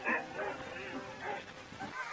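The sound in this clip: Sled dogs bark and yip from a team gathered at a sled dog race in the Yukon, with many short overlapping calls rising and falling in a busy, steady chorus.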